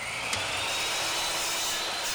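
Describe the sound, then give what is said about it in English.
Steady, continuous rasping as a groove is carved into a wooden box to take the neck of a homemade diddley bow, with the neck cut from old tobacco-barn wood. The grinding hiss runs evenly throughout, with no talk. “step is carving a groove in the box for the neck to go through.”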